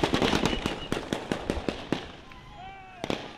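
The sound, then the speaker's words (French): Gunshots are fired at protesters in Ouagadougou. Many sharp cracks come in rapid, irregular succession over crowd noise and voices, then pause briefly before a final close pair of shots near the end. “Voilà pour les tirs contre les manifestants hier dans Ouagadougou.”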